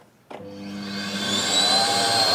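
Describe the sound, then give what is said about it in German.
A vacuum cleaner switched on after a new plug was fitted to its cord: an abrupt start, then a motor whir that climbs steadily in pitch and loudness into a loud, steady whine. “nicht nur das kaputte Radio vom Yannick brummt, sondern auch der Staubsauger, der soll ja immerhin es tun. Also, das funktioniert.”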